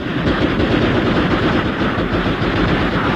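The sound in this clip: Loud, dense gunfire in a battle against attacking soldiers: a continuous, rapid rattle of shots with no pauses from start to finish.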